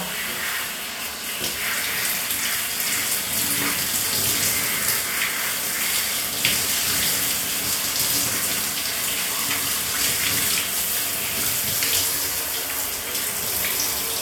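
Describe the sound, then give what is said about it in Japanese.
Running water rinses shampoo foam off a head in a steady, gushing stream that pours on evenly for about fourteen seconds, with no voices over it. “はい、頭流すけ。目つぶり、泡流すよ。”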